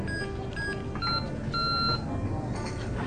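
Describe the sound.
A telephone beeps as a call is placed. Several short electronic tones at differing pitches sound over a steady background hum.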